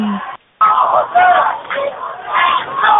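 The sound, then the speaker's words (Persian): Protest crowd yelling and chanting slogans in a tense gathering, a loud, rough roar of many shouting voices that cuts out briefly near the start and then swells again. “مردم از همه دارن دست میزنن و میگن یا حسین میر حسین فلان، یا مرگ به دیکتاتور و از این شعارا.”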